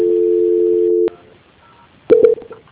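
Telephone transfer tone on a bank call: a steady, even tone holds for about a second, then a click and a pause, then a brief loud burst of bright beeps before the line quiets.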